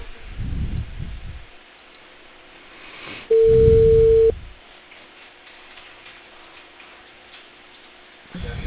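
A telephone ringback tone on a call that goes unanswered: a single steady mid-pitched tone lasting about a second, on a muffled narrowband phone line with faint hiss before and after.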